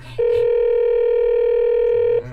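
A telephone ringback tone sounds while a call is being placed. It is a single loud, steady, unbroken tone lasting about two seconds, with faint background noise just before and after.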